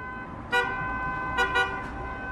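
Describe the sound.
Minibus taxi horn hooting in city traffic to attract passengers: a few short bright honks over a steady droning engine tone, loud and close together.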